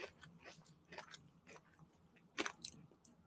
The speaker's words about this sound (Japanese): え、うま。ステラクパさんのクッキー、あ、美味しい。あ、そりゃ売れるわ。うまいわ。